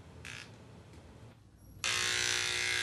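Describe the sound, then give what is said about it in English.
A barber shaving a customer in his barbershop: after faint background noise, a steady, loud mechanical buzz starts abruptly and runs on unbroken. “Shaving a customer at his barbershop before a wall papered with the yellowing portraits of black leaders”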